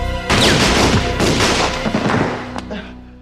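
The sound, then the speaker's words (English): Gunshots ring out in a dramatized police shooting scene, a few loud booming shots with a heavy low rumble, the last one fading into a decaying tail. “So that was Paul shooting and then getting shot by cops”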